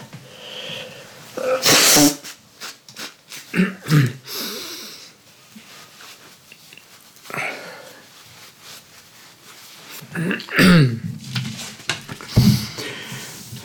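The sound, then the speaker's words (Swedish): Someone blowing their nose in a few loud, wet honking blasts separated by quiet stretches, with snorting and sniffing breaths between them. “Uh, förlåt, jag måste snita mig.”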